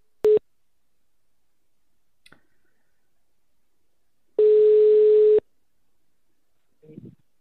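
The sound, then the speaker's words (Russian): Telephone call tones play while someone is being dialed: a short mid-pitched beep, then after a long silence a steady tone of the same pitch lasting about a second, followed by a faint brief sound. “мы пока позвоним вот э, человеку”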